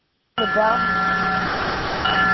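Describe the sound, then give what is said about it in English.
Bells ringing early in the morning in San Francisco in memory of those killed in the great earthquake and fire, starting abruptly after silence and holding a sustained, steady ring with bright overtones. “Bells ring in San Francisco early this morning in honor of the police officers and firefighters who died in the city's great earthquake and fire 100 years ago today.”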